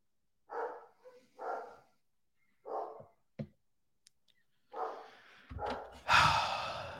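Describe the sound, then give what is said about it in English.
Dogs barking indoors: a few sharp, separate barks in short bursts, then a louder, rough, noisy burst at the end. No one talks. “Always something with dogs, man. I cannot have a stream where these dogs don't lose their absolute mother-loving minds.”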